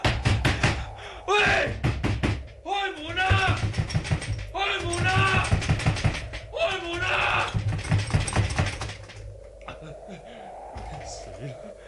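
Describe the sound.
Repeated banging on a locked door, with a rapid series of hard knocks early on and more bursts of blows after it, while a voice cries out over and between the bangs.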